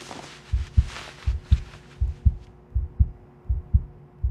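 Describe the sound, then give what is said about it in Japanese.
A heartbeat heard while two people are pressed close together: low, muffled thuds in regular lub-dub pairs at a steady pace, about five double beats, with faint hiss at the start. “あ、心臓の音が聞こえる。すごい、ドキドキしてる。”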